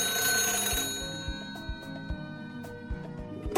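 Telephone ringing with an incoming call, its bright, sustained ring loud at first and then fading away, with soft scattered taps and clicks underneath.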